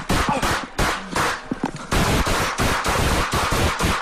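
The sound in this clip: Rapid volley of loud gunshots fired by police officers at a man during a shooting: many sharp, booming reports in quick succession, with a brief lull partway through before the firing resumes.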